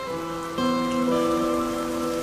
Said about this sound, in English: Rain. It always rains in this dreadful country.